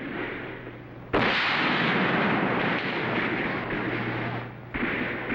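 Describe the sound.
Musket gunshots ring out in a Revolutionary War battle scene. There are two sudden, loud blasts, one early and one near the end, and each trails into a dense, rushing roar that never fully dies away between them.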